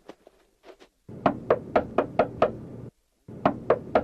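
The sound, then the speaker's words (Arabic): Knocking on a door: a few faint taps, then a loud run of six sharp, evenly spaced knocks, a brief pause, and a shorter run of the same firm knocks. “من الطارق؟ أنا الفضل بن الربيع، افتح يا شافعي.”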